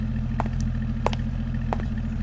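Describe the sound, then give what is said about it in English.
A car engine left running idles with a steady, low, throbbing hum and a few faint clicks, with no talk. “You left your engine running.”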